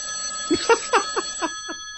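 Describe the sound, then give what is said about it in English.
An old telephone ringing, with a series of evenly spaced metallic strikes over a steady high ringing tone. “Uh-oh. Old phone. Looks like we got a live one on the hotline.”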